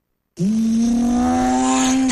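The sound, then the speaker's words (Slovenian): Honda motorcycle engine revving loudly, a sustained buzzing drone that cuts in abruptly and holds a steady pitch, creeping slightly higher toward the end, with no talk over it. “Motori Honda”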